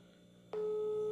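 A telephone call goes unanswered, its steady electronic ring tone starting abruptly partway through and holding at an even, moderately loud pitch until the end, with no voices.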